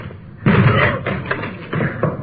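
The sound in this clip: A locked door is struck with a few heavy, dull thuds in an irregular rhythm, each blow landing hard and muffled, with rougher noise between the impacts.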